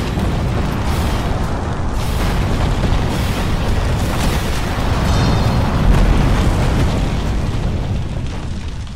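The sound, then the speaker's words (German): Detonated explosives produce a prolonged, dense roaring rumble that stays loud and even for about nine seconds, with no single sharp bang standing out and no voices. “Der Sprengstoff zündete und die Explosion erfüllte ihren Zweck.”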